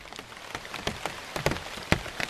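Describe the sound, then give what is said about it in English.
Rain splattering on a giant ceibo tree and the plants growing beneath it in the Ecuadorian Amazon: many irregular drops patter and tap on leaves, with sharper individual splats standing out over a continuous soft hiss of rainfall. “This is the sound of rain splattering on a giant ceibo tree and the plants growing underneath it in the Ecuadorian Amazon.”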